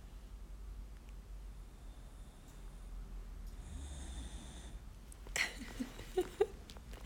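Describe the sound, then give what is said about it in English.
A sleeping 30-pound scruffy mutt snores loudly, with quiet, steady breathing at first and then a few sharp snorts and snuffles near the end. “one of whom is a really loud snorer. Even when he's awake, he breathes loudly, but especially when he is chilling like this. Let's get a little close up here. Listen to this.”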